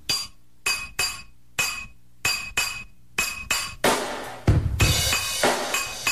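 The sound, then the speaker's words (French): A spoon taps a stuck glass bottle of extra virgin olive oil in many bright, ringing clinks. The taps are spaced apart at first, then grow faster and denser into an almost continuous clatter toward the end. “Bon, il y a la bouteille d'huile. De l'huile extra vierge. Qui veut pas ouvrir. Il y a des petits coups de cuillère dessus.”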